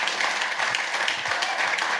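A comedy audience claps to welcome a comedian onto the stage, with dense, steady applause that holds at an even level throughout.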